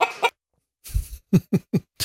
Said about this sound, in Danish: Ja, høna er løs. Høna er løs. Det går faktisk et par høner rundt her